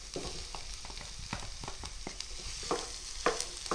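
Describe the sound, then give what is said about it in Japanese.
Minced meat stir-fried in a pan over medium heat with softened vegetables, a spatula scraping through it: a steady sizzle broken by many quick scraping strokes, with no talking. “さあ、ここからも同じように中火のまま、ひき肉がポロポロになるまでちょっと炒めていきますね。”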